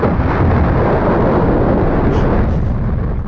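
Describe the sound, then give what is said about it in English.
An explosive boom used as a time machine sound effect: a loud, dense rumbling roar held steadily for over three seconds, with a thin high whine appearing briefly near the end. “I kind of like the time machine. Because the time machine is like, boom! Yeah, it's instant.”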